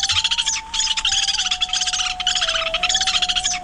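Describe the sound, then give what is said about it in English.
Calls of a Lewis's woodpecker: a loud, continuous series of rapid, buzzy chattering bursts repeating in an even rhythm, with a steady tone running underneath. “A most unusual woodpecker, Melanerpes lewis.”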